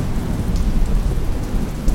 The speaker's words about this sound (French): il pleut dehors